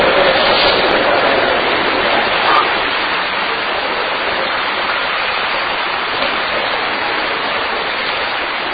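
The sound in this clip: Rain falls in a loud, dense, continuous hiss that barely changes, a heavy downpour with a slight easing after the first few seconds.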